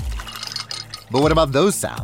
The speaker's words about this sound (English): Those are the sounds of the Samsung Bespoke Refrigerator's beverage center with internal water dispenser and built-in pitcher with flavor infuser for crisp,